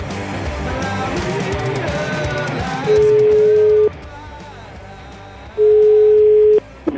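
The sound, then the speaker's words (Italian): Telephone tone of an outgoing call: two steady, level tones, each about a second long and separated by a pause, stand out loudly over a dense, busy background. “La facciamo la telefonatina o no?”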